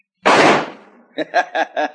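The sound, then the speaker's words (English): A gunshot fired at a branch stub on a scrub pine: one sharp, loud blast with a quickly decaying tail, after which a voice begins speaking. “Not bad shooting, huh, Paul?”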